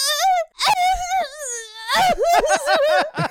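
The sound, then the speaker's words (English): A voice imitates someone sobbing in an exaggerated, comic way: drawn-out, wavering high wails broken by a gasp, then a run of quick choppy sob bursts, loud throughout. “It's an amazing cry.”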